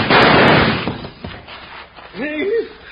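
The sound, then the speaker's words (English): Gunshot in a Western-style shootout: a single loud, sharp blast that fades out, followed by a brief voice. “Now I'm going to blast him out of there.”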